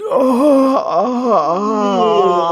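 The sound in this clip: An exaggerated, drawn-out voiced yawn, one long moaning tone that wavers and dips in pitch partway through before settling, heard alone.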